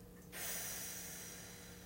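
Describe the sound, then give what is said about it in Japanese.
A slow, deep exhale during a relaxation breathing exercise: soft, steady, airy breath noise that swells in and holds for about a second and a half, faint and with no talking. “深く吸ってゆっくり吐きます”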